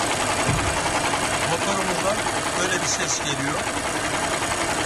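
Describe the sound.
A car engine with a reported engine fault runs noisily, giving a valve-like ticking clatter over a steady, dense mid-pitched rumble that stays fairly loud and unbroken throughout.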